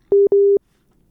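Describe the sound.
A telephone busy tone follows a dropped call. Two loud, steady, low-pitched beeps come in quick succession, the second longer than the first, then silence.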